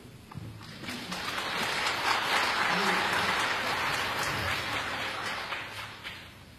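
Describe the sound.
Audience applause welcoming performers onto a concert stage swells quickly into dense, steady clapping from many hands, holding at full strength before cutting off at the end.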